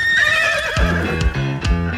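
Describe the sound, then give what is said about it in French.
A farm horse that pulls carts and harrows lets out a loud, high, quavering whinny, followed by a few heavy hoof thuds spaced roughly evenly apart. “vous vous dites, tiens, un cheval. Eh oui, tiens donc, le cheval est en effet le héros de notre premier épisode.”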